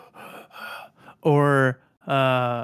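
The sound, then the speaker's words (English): A voice imitates Homelander's heavy, strained breathing from The Boys meme. Brief talk is followed by two loud, drawn-out, voiced gasping breaths. “Homelander is the Superman-like figure from The Boys that's like mentally unstable. Which meme is he? He's the one where he's like trying to breathe real heavy.”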